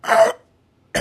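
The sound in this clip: A voice imitates a woman coughing in a restaurant with two short, harsh coughs. The first is longer, and a brief pause of silence separates them.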